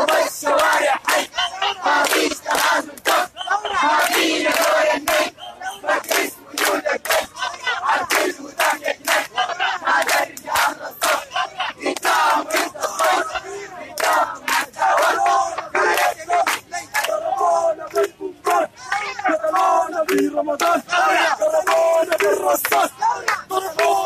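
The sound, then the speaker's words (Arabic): Protesters in a street march chant slogans together: a loud, continuous mass of raised voices with a steady, rhythmic pulse that carries throughout. “ووزع ناشطون قصاصات ورقية للترويج لمليونية 13 يوليو، وردد المشاركون في الموكب هتافات”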